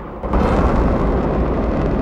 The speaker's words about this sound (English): Then the rocket's engine blasts it out of the slime and up into space again.